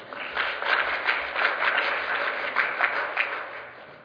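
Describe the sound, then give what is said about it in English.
Audience applause welcoming a speaker to a talk: dense, continuous clapping from many hands, steady and fairly loud throughout, with no voices. “So again, let's put our hands together and welcome Dr. Steve Campbell.”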